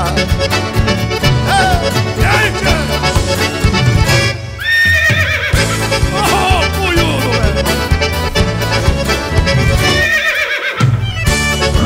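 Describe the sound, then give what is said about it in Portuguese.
A black dapple-grey horse whinnies and trots, its rising and falling neighs cutting through loud music, while a rhythmic hoofbeat clip-clop runs underneath. “Dali a pouco ouviram o tropel, olharam o campo, noite enluarada. Eu vinha vindo no tordilho negro, feliz saboreando a marcha troteada.”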